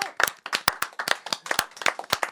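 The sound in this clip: Hand clapping, a quick run of many sharp, loud claps in an uneven rhythm, with no talk over it.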